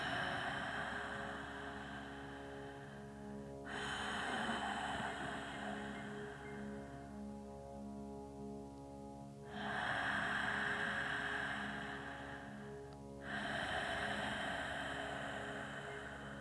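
Slow, deep breaths in and out during a guided relaxation exercise: soft, airy rushes of inhaling and exhaling alternate with quieter pauses, over faint sustained tones underneath.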